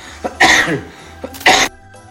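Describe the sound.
Two harsh, explosive coughs, each a short loud burst with a faint catch just before it, separated by about a second of quiet.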